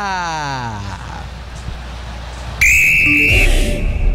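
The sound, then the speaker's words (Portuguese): A referee's final whistle ends a Brazilian league football match at an arena: one long, loud, shrill steady blast that cuts in sharply after a quieter stretch of background noise and holds for nearly a second. “Apita pela última vez no jogo, Sávio Pereira Sampaio.”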